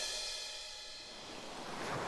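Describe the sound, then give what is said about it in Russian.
Soft wash of sea waves tossing a small wooden trough at sea in a told tale, a faint, continuous rushing that dips slightly and swells again. “Волны ударялись о корыто и бросали его из стороны в сторону весь день и всю ночь.”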